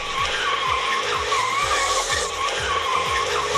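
Tyres screech loudly as cars drift in Peterborough. A wavering, high squeal runs throughout, over engines revving in a repeating rise-and-drop rhythm.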